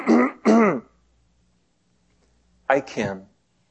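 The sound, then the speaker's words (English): A person clears their throat: two quick, harsh, gravelly bursts, a pause of over a second, then another rougher double clearing. “in Daniel chapter 4, they hear God clear his voice. His throat.”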